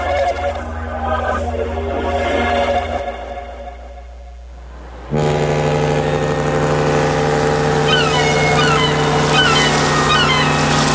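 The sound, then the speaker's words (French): A small boat engine runs with a steady, harmonic drone. It dips quieter partway through, then abruptly jumps louder and holds a strong, even hum to the end. “Ah, tu pensais pas que je te forcerais à ressortir sur le beau petit bateau à l'extérieur?”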